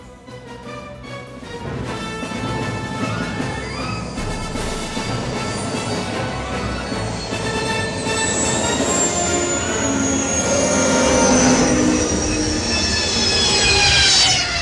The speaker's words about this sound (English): That, everybody, is the sound of the Starlight Beacon Star Wars Lo-Fi that you can find on Star Wars YouTube